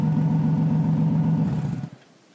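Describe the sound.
A car low on gas turning around to head back to the highway: a steady, low engine hum that drops away abruptly near the end, leaving near silence.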